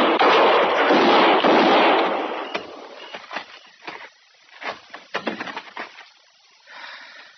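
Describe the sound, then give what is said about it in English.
Gunshots fired in a dark room: a loud, roaring blast that decays over a couple of seconds, followed by several scattered, sharper cracks. “I tried for his shoulder the first shot, but I missed.”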